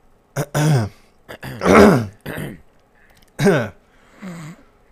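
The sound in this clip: A person clearing their throat several times: a string of gravelly, voiced rasps separated by short pauses, with the final one softer.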